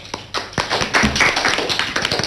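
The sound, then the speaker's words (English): Scattered clapping from a quiz-show audience applauding a contestant's correct answer: sharp, irregular claps that start sparse and thicken slightly, at moderate loudness and with no voices. “Let us all give a big round of applause for Divich.”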